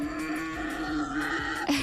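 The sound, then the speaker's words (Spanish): A wild boar makes a continuous, harsh, tonal squealing grunt that holds steady and ends in a louder, sharper cry. “nos explicaron brevemente que había sido por un jabalí, por eso el sonido del jabalí.”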